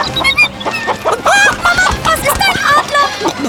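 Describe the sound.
Chickens cluck in a henhouse, with many short, pitched clucks and squawks overlapping in a busy, loud flurry.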